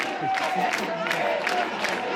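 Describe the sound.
A protest crowd at a street blockade cheers and shouts as police withdraw. The whoops and calls rise and fall over a steady crowd roar at moderate level.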